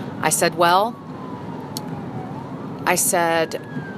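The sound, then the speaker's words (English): A fire truck siren passes while a person talks over it. The wail is faint and sweeps slowly down and back up in pitch beneath the voice. “there's a fire truck going by.”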